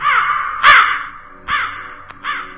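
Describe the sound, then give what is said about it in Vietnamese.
A large black bird, a crow, gives a few harsh, raspy caws in succession, loud and alone, each a rough descending cry separated by short pauses. “Tự nhiên có con chim to lắm, đen xì xì, từ đâu bay vụt lên, kêu lên đến quát một cái.”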